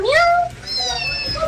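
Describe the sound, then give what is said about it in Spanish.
A kitten meows twice in high-pitched calls, the first rising in pitch and the second more drawn out, with no voices. “¿Cómo habla? ¿Este gatito qué pasó? Bueno, ¿qué le pasó al gatico?”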